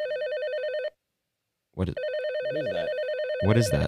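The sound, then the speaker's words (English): A telephone rings with a warbling electronic trill, a steady burst followed by a short silence and then a longer stretch of the same ring, with other brief sounds over the later part. “what is that? Is there a phone ring?”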